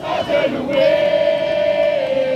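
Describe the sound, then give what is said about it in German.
A welcoming committee of children and youths sings and cheers as a plane lands at Paris-Orly airport. The voices blend into one loud, sustained sung tone that holds steadily throughout. “Ein Empfangskomitee aus Kindern und Jugendlichen singt, klatscht und jubelt, als der Papst am Flughafen von Paris-Orly landet.”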